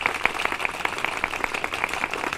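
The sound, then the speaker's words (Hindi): Rhythmic clapping from an audience just before a puppet show, evenly spaced claps keeping a quick steady beat over a softer wash of hand noise. “भाइयों बहनों और प्यारे बच्चों, अब शुरू होने जा रहा है कठपुतलियों का खेल, लेकिन उससे पहले जोरदार तालियों।”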